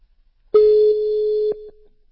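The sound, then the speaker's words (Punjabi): A telephone call ringing out: a single steady electronic tone lasting about a second, dipping slightly in level partway through and cut off by a short click, with silence around it. “ਮੈਂ ਉਹਨਾਂ ਨੂੰ ਕਾਲ ਕਰਕੇ ਵੇਖ ਲਾਂ ਜੇ ਉਹ ਆ ਲਵੇ।”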